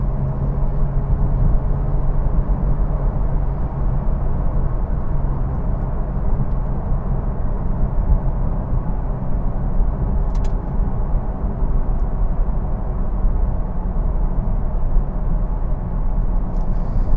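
A car's steady engine and road noise as it is driven on dry pavement in cool 45°F weather to warm its tires. The drone holds at an even, loud level throughout, with no talking.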